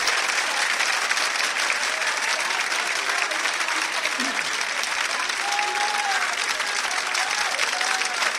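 An audience at a gathering gives sustained applause: an even, loud wash of clapping that holds steady from start to finish without a break.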